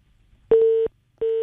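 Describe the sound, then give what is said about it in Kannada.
A telephone disconnection tone after a call drops: two steady, mid-pitched electronic beeps separated by a short silence, the second one cut off at the end. “ಕರೆ ಕಡಿತಗೊಂಡಿದೆ.”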